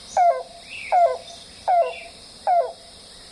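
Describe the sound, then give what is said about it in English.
A yellow-billed cuckoo calls from shrubs beside a boardwalk in a southern swamp. Four evenly spaced, hollow, descending 'kalp' notes sound clearly over faint background hiss, with a fifth note cut off at the end. “it's the call of the yellow-billed cuckoo, which is a relative of the common cuckoo of Europe that goes cuckoo, cuckoo, but this one goes kalp, kalp, kalp, kalp.”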